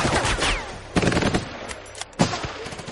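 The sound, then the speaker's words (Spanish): Projectiles fired at tanks in a World War II battle: dense, loud gunfire with a continuous rattling roar, broken by a few sharp, heavier blasts. “Lanzan proyectiles a los tanques.”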